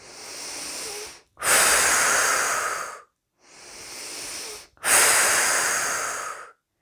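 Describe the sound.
Slow, deep breathing during a guided relaxation exercise: two full breath cycles, each a softer intake followed by a longer, louder, hissing exhalation, separated by brief silences.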